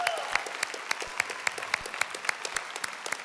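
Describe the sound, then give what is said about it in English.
Scattered applause from a church audience greeting members who have returned. A few people clap steadily with distinct, fairly faint claps and no talk. “So if you are here on site, would you put your hands together?”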